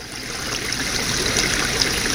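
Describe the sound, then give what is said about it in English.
Gurgling brook water flows in a steady, even wash of bubbling and trickling that holds at a constant moderate level throughout, with no voices. “she says we all think water. And more precisely, we think gurgling brook.”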